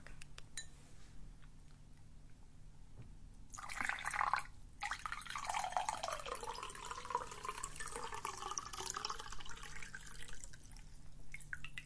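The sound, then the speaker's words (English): Water poured into a drinking glass after a workout: a steady splashing stream begins a few seconds in and carries on to the end, with no talk. “It's very important to replace it with water. So I'll just pour a glass.”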